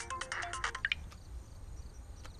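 A telephone rings late at night with a short electronic ringtone melody of bright beeping notes, then fades to a low, steady background hum.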